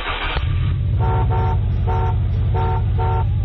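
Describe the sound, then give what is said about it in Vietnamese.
A bus engine idles with a loud, steady low rumble while the driver honks the horn in a rapid series of short, bright blasts. “Vừa lúc ấy, tài xế dồ máy xe, bóp còi inh ỏi”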